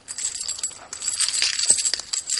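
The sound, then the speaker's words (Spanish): Gold coins poured into a woman's hands make a continuous bright metallic jingling and clinking, dense and steady throughout, with no talk. “Vierte varias monedas de oro en las manos de su esposa.”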